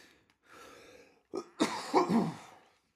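A person coughs from a tickle in the throat caused by allergies: a soft breath, then a few short, rough coughs in quick succession, fairly quiet.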